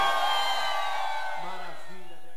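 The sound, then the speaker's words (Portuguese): Loud shouting and cheering rise from a concert crowd, a dense sustained roar that gradually fades, with a man's voice speaking over it. “cadê o grito da galera aí?”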